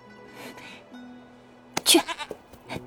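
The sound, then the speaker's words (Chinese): A lamb bleats a few times, short wavering cries over quiet background, the loudest and highest one coming in the middle, followed by softer, briefer bleats. “将手中羊羔放下地，驱着羊羔朝燕无师那里走。”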